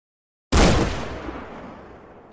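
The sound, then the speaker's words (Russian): A single rifle shot in a taiga forest of pine and spruce: a sudden loud blast after a moment of silence, followed by a long, slowly fading rumble of echo. “Выстрел разорвал тишину тайги оглушительным громом. Эхо покатилось между могучими стволами сосен и елей, отражаясь от коры”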